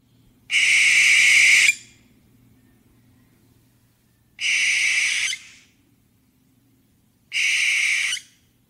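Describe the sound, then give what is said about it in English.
Barn owl screeches: three harsh, hissing shrieks, loud and alone. The first is drawn out longest and the two later ones are shorter, separated by pauses. “If you go ahead and find a recording of barn owl, it is a blood-curdling screech.”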